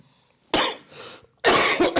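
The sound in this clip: Coughing bursts out loudly in two separate spells. A sharp cough trails into a softer rasp, then after a brief pause a heavier, rattling fit of a few rough coughs follows.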